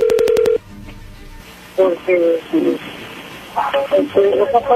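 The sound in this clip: A telephone number is dialed on a touch-tone keypad as a quick run of short beeps, and then voices talk.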